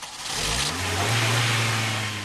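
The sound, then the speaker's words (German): An old Toyota Corolla engine catches and comes to life. Its hum climbs in pitch over the first second, then settles into a steady, fairly loud running drone. “Aber der alte Corolla springt nochmal an.”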